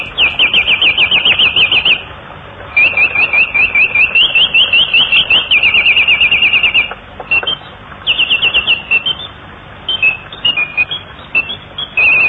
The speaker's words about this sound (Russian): Ну а вот как звучит пение птицы «Бюль-бюль».